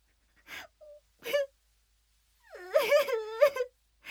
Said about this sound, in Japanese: すいません、涙止まらないです。